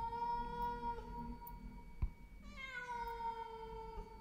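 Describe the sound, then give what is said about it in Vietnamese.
A cat meows plaintively in a grandmother's yard, giving long, drawn-out, mournful cries with clear tonal harmonics, heard alone without talk. “Ở dưới sân của bà, con mèo lúc nãy tưởng đã đi, thế nào mà giờ nó lại quay lại kêu lên mấy tiếng thê thiết.”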